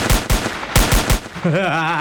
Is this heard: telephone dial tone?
no